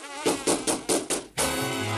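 Wasps flying and buzzing in front of a man's face at a construction site: five quick, rhythmic buzzing pulses, then a steady, unbroken drone after a brief gap.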